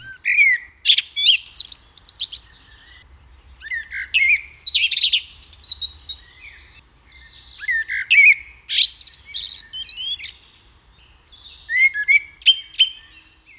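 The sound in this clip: A songbird sings varied, fluting strophes, each ending in high notes. The bird once nested in woods and scrub but has adapted to towns. Clear, loud phrases are separated by short pauses, with many strophes and no voices.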